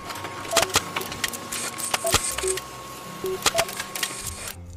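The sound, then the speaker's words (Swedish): A printer printing out a story, with sharp mechanical clicks, short whirring tones and a steady underlying hum, closing on a brief burst of feed noise. “Jag skriver ut den till er och Milton här.”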